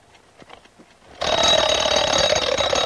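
An alarm clock is handled, with a few faint clicks and rattles as its back knob is turned. Its alarm then bursts into loud, continuous, buzzing ringing that holds steady to the end.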